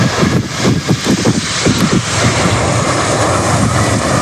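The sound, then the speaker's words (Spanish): Loud, steady roar of an Air China airliner arriving at an air base outside the capital, a broad rumbling jet noise with some pulsing in the first half and no voices. “A bordo de un avión de Air China, llegaba a la base aérea de Andrews, a las afueras de la capital.”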